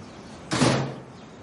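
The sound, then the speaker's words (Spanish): A lid is shut on a rubbish bin, giving one sudden, soft thud with a short decaying tail over a quiet, steady background, and nothing else before or after. “Mira pensativo y cierra el cubo con la tapa.”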